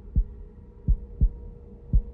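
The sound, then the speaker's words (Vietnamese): A fast heartbeat pounds as four deep, low thumps at a quick, slightly uneven pace, with a faint hum between beats and no voices. “Nhịp tim đập nhanh liên hồi”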